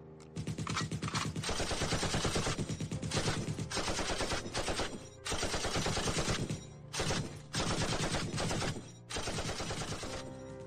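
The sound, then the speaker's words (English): Rifle gunfire in a zombie drama, with automatic fire crackling in many rapid bursts separated by short gaps. The shooting is fairly quiet overall and has no voices. “We all aimed our rifles at the closest target and fired.”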